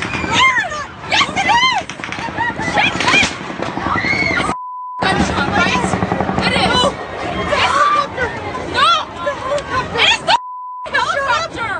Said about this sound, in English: There were the sounds of a shooting. We've seen sounds of shooting and yelling and chaos so many times on TV.